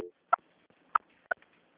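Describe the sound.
Three short electronic telephone beeps sound while a call is being transferred, each a clipped tone burst separated by silence, with the last two closer together.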